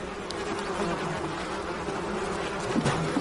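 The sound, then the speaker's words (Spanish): Bees buzz steadily around a beekeeper's face as he opens wooden, cube-shaped hives, a continuous droning hum with no breaks and a faint higher whine over it. “De vez en cuando agita su brazo tratando de apartar las abejas que revolotean cerca de su cara.”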